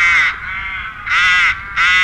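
Nightingale song heard through a heterodyne bat detector, coming out as three harsh, buzzy, crow-like bursts, loud and alone, with short gaps between them.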